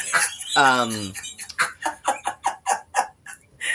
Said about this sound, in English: is that a quack noise? That is a duck. Lovely. That is a duck. We have been duck bombed. Do you have a duck in your house? No, you have a duck toy.